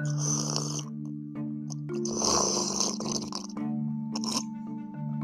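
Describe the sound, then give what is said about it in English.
Drinking apple juice, with loud, continuous slurping and throaty gulps that swell and ease several times over a steady low drone. “Are you thirsty? How about some apple juice?”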